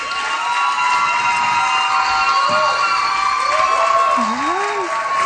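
A concert audience clapping and cheering to welcome a singer and her quartet, steady applause with whoops and shouts gliding up and down above it.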